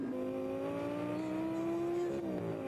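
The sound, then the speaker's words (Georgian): Engine roar from a small, fast sports car, heard alone as a fairly quiet, steady drone whose pitch climbs gradually, then drops sharply near the end. “ეს პატარა მანქანა ნამდვილი მონსტრივით ხმოის.”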